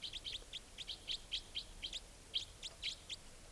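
Many rapid, high-pitched chirps from a wild bird near aviary cages, given as a quick, slightly irregular series of short notes. The calls are fairly faint and sound alone over a soft background hiss.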